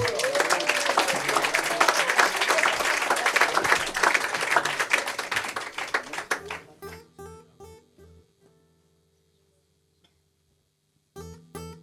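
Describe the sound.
Audience applause at a live blues concert at the Millennium: dense, steady clapping for about six seconds, then it thins out into a few short plucked notes and a brief silence.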